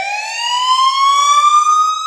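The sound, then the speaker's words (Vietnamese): A police patrol car siren wails during a car chase, a single steady tone with a slowly rising pitch that holds loud and unbroken throughout, with no voices. “một chiếc xe tuần cảnh đã hú còi và chạy đằng sau xe anh”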